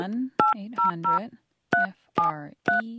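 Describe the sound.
Telephone keypad tones dial a free 411 directory assistance number, a quick series of short, bright beeps in uneven clusters separated by brief pauses.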